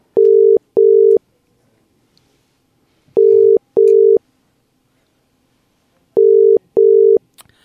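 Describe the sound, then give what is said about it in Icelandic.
Telephone ringing tone while a call is being placed: three pairs of loud, steady, mid-pitched tones, each pair followed by a regular pause, with no talk. “En við ætlum að ringja í mann”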